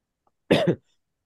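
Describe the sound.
Throat clearing: one short, rough two-part rasp with nothing else around it.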